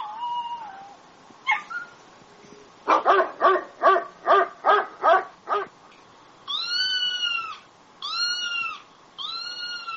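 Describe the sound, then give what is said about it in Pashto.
Stray dogs barking in Turkey: a rapid, even run of seven sharp barks, with cat-like meowing calls and yips sounding before and after. “ترکیه یو له هغو هیوادو څخه دی چې کوڅه ډبه، سپی او بې څښتنه پیشوګانې ډېرې لري.”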